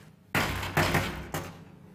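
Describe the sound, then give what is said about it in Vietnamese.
Loud knocking on a door: a few heavy, booming knocks in an uneven rhythm, each with a short resonant tail. The room is quiet between the knocks, and no voices are heard. “Làm cái gì mà gõ cửa đùng đùng?”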